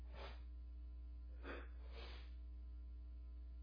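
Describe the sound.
Sneezing brought on by allergies: a few sharp, breathy bursts over a steady electrical hum, with no talk.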